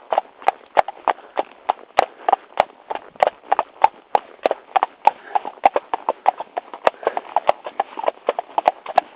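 Horse walking with hooves clip-clopping: many sharp, crisp hoofbeats in a steady, even rhythm carry through the whole stretch.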